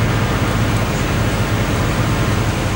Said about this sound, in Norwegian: I maskinrommet står det to hovedmotorer, som 13 meter lange og nesten 3 meter høye. De sørger for framdrift og styring og gir strøm til alt ombord.